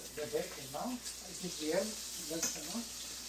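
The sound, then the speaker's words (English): Bacon sizzles in a pan as Dad cooks breakfast in a hotel suite, a steady crackling hiss running throughout beneath people talking. “Now we're in Dad's suite and he's cooking. What'd you make, Dad? Well, I'm making the bacon, huh?”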